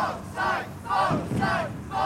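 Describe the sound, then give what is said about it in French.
A crowd of nationalists chants the name of a Derry neighbourhood during 1969 street clashes with police. The rhythmic group shouts repeat in quick pulses, fairly faint and blended into a roar. “La foule scandait le nom d'un quartier de Derry, où les nationalistes affrontaient la police depuis 4 jours.”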